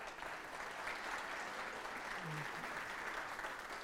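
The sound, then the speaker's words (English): Applause from an audience in a church worship center welcoming back returning attendees, an even, sustained wash of clapping at moderate level that runs unbroken from start to finish. “Can we give them a hand for being here?”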